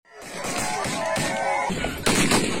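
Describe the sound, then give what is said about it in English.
Gunfire from gunmen in an armed ambush during a tribal conflict in Enga province, Papua New Guinea: a few loud, sharp bursts cut through a dense, sustained wash of noise, with voices audible throughout. “That's the sound of gunmen who massacred 60 people in an armed ambush.”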